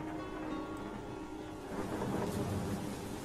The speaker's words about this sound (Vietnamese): trời đổ mưa, cơn mưa mỗi lúc một lớn, sấm chớp lập lòe vang rền lên giận dữ.